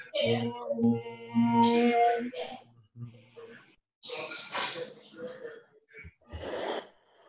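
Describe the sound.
Deep inhales in a yoga class: sustained voiced humming gives way to a few breathy, airy rushes of indrawn breath, moderately loud with short gaps between them.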